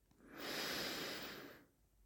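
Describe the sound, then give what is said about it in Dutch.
One slow, soft breath drawn during a guided breathing exercise, a faint airy hiss that swells smoothly, holds and then fades away, heard alone. “Adem in. Adem uit.”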